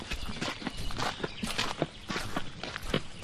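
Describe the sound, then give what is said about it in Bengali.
Footsteps crunch along a gravel path toward a house in a steady series of crisp, gritty steps at moderate volume. “আমরা গাড়িটা বাইরে রেখে কাঁকড় বেছানো রাস্তা দিয়ে বাড়ির দিকে”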